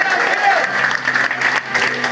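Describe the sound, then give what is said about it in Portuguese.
Applause from a church audience during a sermon: dense, steady clapping that holds at an even, fairly loud level throughout, with a brief dip in intensity near the middle. “Se você não aplaudiu, eu tenho desconfio com você nesse momento.”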